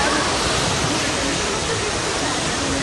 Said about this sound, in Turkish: Özellikle Demre ilçesinde derelerin taşması sonucu onlarca evi su bastı.